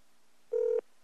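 A single telephone keypad tone rings out as a steady mid-pitched beep lasting about a third of a second, alone against near silence, while a toll-free number is dialed.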